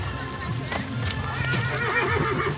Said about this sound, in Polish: widzimy konie przygotowujące się do pokazu.